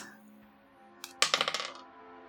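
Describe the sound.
Dice rolled in a tabletop role-playing game clatter onto a hard surface: a light tap, then a rapid run of bouncing clicks that quickly shrink and die away, faint overall.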